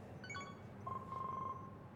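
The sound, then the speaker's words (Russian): A smart bracelet rings with an incoming call in an empty kitchen: a quick burst of high electronic tones, then a sustained steady beep, all faint. “В пустой кухне дома Вика звонит браслет. На стекле надпись «Входящий Масловский».”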